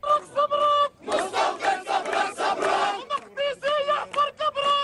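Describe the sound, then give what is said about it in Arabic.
Crowd chanting in Jerusalem in support of the Prophet Muhammad: loud massed voices shout rhythmic phrases in unison, with short bursts at first, a dense sustained surge, then a run of clipped, evenly spaced chants. “بحماس تحتضنه وجوه أهالي القدس، أطلقت الحناجر هتافات نصرة للرسول”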